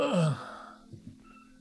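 A man groaning as he stirs: a short, falling, sigh-like moan at the start, then faint soft bumps of movement that trail off quietly.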